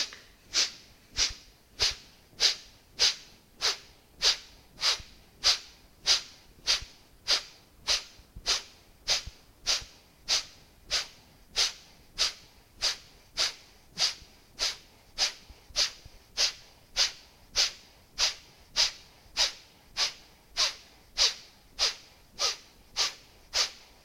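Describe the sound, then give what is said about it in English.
Kapalabhati yoga breathing: many sharp, forceful nasal exhalations in a steady, even rhythm of roughly one to two puffs per second, each a brief hissing snort of similar loudness, with no talk. “Breathe in and fill up halfway. And then begin Kapalabhati.”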